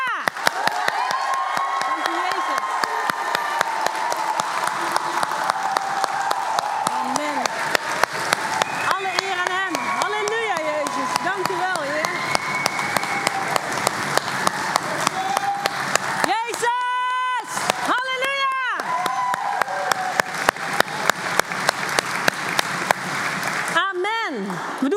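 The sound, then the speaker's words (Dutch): A church audience claps and cheers in sustained, dense applause. Shouts and high whoops rise above the clapping, with a burst of voiced cheering past the midpoint and the clapping carrying on to the end. “Dus ik wil even vragen of je dat echt wil laten horen. En niet met een beschaafd klapje. Halleluja!”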